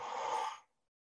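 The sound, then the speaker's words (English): A group exhales together through open mouths after a deep breath in, making one soft breathy whoosh that lasts about half a second and then stops, leaving silence. “let's just all take a big, huge breath in. and open your mouth and exhale.”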